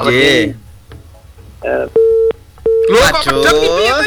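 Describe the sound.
A telephone busy tone sounds after a phone-in call to a radio request show is cut off. It gives two steady, mid-pitched beeps, with voices talking just before and after.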